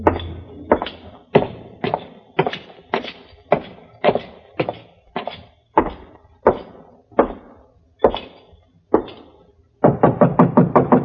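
Knocking on a door comes as a quick, loud burst of several raps at the end, after a long, slower series of heavy, irregular wooden thuds spaced about half a second apart.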